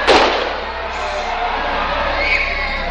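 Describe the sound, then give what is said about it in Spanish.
A single loud pistol gunshot, fired by a security guard at a zombie in a horror scene, cracks at the very start, followed by a sustained, dense, noisy din that stays loud to the end. “un guardia de seguridad está a su lado y los protege con su pistola. Dispara a un zombi que se acerca dándole muerte”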